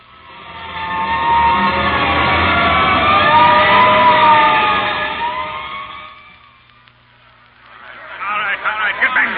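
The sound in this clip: A fire engine siren wails loudly in long, wavering sweeps for about six seconds, then drops away. A harsher, different noise starts near the end.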